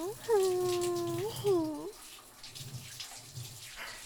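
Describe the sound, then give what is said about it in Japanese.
Shower water runs over someone's head: a soft, steady spray that continues after a voice hums a short melodic phrase at the start. “はい、じゃあ頭から流していくっすね。”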